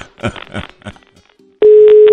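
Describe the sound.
A telephone ringing tone while someone repeatedly calls a woman who has not answered. Brief voices come first, then a steady, single-pitched tone starts partway through and holds loudly to the end.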